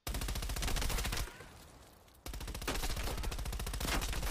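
Pistol gunfire in a video game: a dense run of quick, evenly spaced shots, a pause of about a second, then another long rapid burst, loud throughout.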